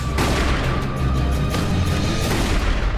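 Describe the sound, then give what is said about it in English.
Gunshots go off in a tense Western chase scene, a few sharp booming reports standing out from a dense, loud, continuous rumble that fills the whole stretch. “You missed your shot, Cogburn.”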